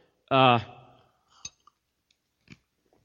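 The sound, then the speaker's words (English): An ice cube is crunched between the teeth, heard as a few short, sharp crunchy clicks scattered after a brief voiced sound, fairly quiet against silence. “excuse me while I crunch an ice cube. I didn't realize there were ice cubes in there this morning.”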